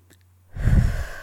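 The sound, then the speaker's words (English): A deep breath after a short quiet pause: a soft, airy rush that swells into a full, heavy draw of air lasting under a second. “So I want you to take one more deep breath”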